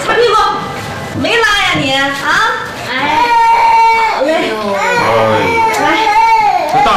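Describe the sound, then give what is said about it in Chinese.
Young children cry loudly and without a break, their high, wavering wails and whimpers rising and falling and overlapping one another. “他们在这儿哭，不知道的还以为你们这儿是托儿所呢。”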